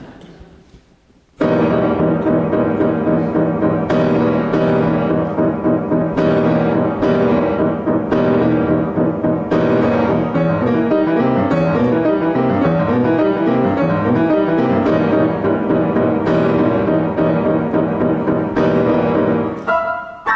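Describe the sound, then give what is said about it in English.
Orchestra loudly playing an F-flat major chord in the low instruments against an E-flat dominant seventh chord in the high ones, a dense, dissonant mass that enters abruptly and holds for nearly twenty seconds with repeated re-attacks. “starts out with the lower register instruments playing an F flat major chord, and the upper register instruments playing an E flat dominant seventh chord.”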